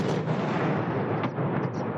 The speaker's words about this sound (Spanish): La explosión derribó primero la nave de Tolpas y después las dos torres de 270 y 290 metros de altura.